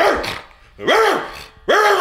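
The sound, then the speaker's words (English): A person imitates a big dog barking loudly into the microphone, giving three separate gruff barks that each rise and then fall in pitch, with short pauses between them. “It's too loud. So that's my dog.”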